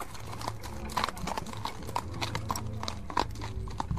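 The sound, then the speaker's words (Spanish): A ridden horse's hooves clip-clop in an uneven, continuous run of many sharp strikes over a low background rumble. “pocos minutos después de la medianoche, Belgrano montó en su caballo”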